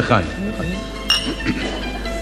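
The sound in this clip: Glasses clink together in a toast during a meal, giving a few bright, ringing taps, one especially sharp in the middle, heard under people chatting.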